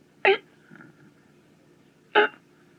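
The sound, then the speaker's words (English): A voice imitates a sick baby gasping for breath with two short, sharp gasps separated by a long pause and a faint murmur in between. “the baby's just worse. See, just looked like any minute, just kind of catching his breath like he's going,”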